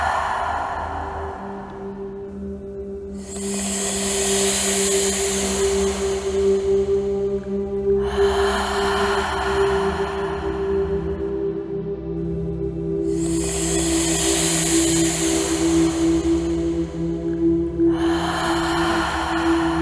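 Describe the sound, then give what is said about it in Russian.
Slow, deep breaths, inhaling and exhaling, come as long airy swells. Each one lasts a few seconds and is separated by short pauses, over a steady low droning tone. “Погнали. Вдох. Выдох.”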